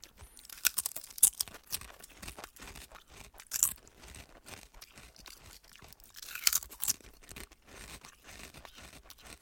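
Crunchy sour cream chips flavoured with onion and bacon are bitten and chewed, giving many irregular crisp crunches with a few sharper bursts, fairly quiet and alone.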